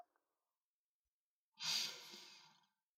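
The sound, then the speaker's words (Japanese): A single slow, deep breath drawn in through the nose, soft and faint, rising out of near silence and trailing off gently on its own. “私の声に合わせてお鼻で深呼吸しよう。”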